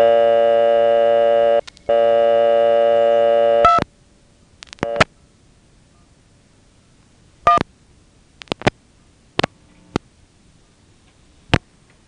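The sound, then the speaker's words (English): Payphone line after a quarter is inserted and 2-1 dialed: a loud, steady electronic tone with one brief gap cuts off, followed by a scattered series of sharp mechanical ticks and clicks in near silence. “Well, I'm going to get real brave and put a quarter in and dial 2-1.”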